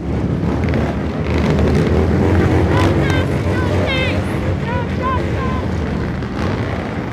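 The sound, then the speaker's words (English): Motorcycle engines roar with throttles held open, their exhausts aimed at a sidewalk during a protest march. The loud, dense, continuous din carries voices shouting through it. “they back in, position their bikes' exhaust valves as close to the sidewalk as possible, in preparation. When protesters arrive, the throttles open up.”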